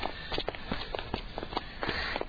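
Faint footsteps of someone walking, many soft, quick steps tapping in an uneven rhythm.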